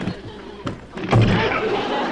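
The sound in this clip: A door bangs as someone goes through it, giving a sharp thump and then a louder, heavier bang that rumbles on briefly.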